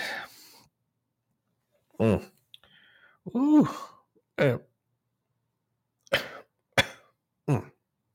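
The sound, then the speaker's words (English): A person coughs and clears their throat in a series of short, separate bursts, some harsh and breathy, others voiced and groaning, with quiet pauses between them. “Sorry, I had something in my throat there.”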